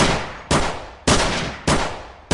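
Gunshots fired at the far wall of a house by a shooter holding a gun in each hand: a few loud, sharp blasts in an uneven rhythm, each followed by a long ringing decay.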